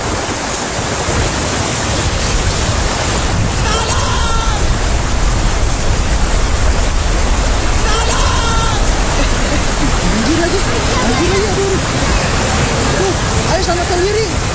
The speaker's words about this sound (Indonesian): hujan lagi gimana dong? Iya, hujan ya.